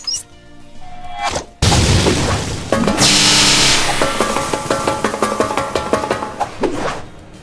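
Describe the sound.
A fireball explosion in a video game: a sudden loud, broad blast that swells into a sustained roar, then breaks into a rapid string of crackling, thudding hits that fade toward the end.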